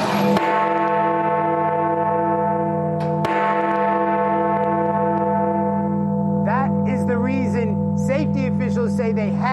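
The large bell of a Westminster clock tower under restoration strikes twice, once at the start and again about three seconds later, each blow leaving a loud, humming, slowly decaying resonance that rings on throughout.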